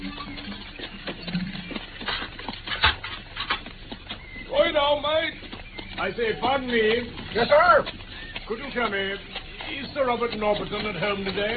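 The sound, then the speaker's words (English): Hooves clip-clop as a horse-drawn carriage arrives on a driveway, with voices speaking over much of it. “I can see the carriage in the driveway now.”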